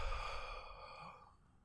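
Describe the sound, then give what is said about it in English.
A long, deep breath being let out during a guided muscle-relaxation exercise, soft and airy, holding steady and then fading away in under two seconds. “Just one more big breath in. And release.”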